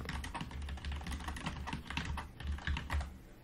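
Rapid, continuous clicking of keys as a short message is typed on a computer keyboard, with dense, uneven keystrokes and a few heavier taps near the end.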